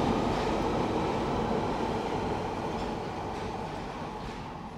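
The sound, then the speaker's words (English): A London Underground tube train runs with a loud, dense, continuous rumble and rattle that eases slightly toward the end. “And you might notice we don't talk much in the tube because it's making too much noise.”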